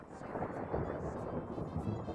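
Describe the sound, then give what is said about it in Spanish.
Thunder rolls as a continuous low rumble with a broad hiss, holding steady for the whole stretch with no clear breaks. “truenos, tío.”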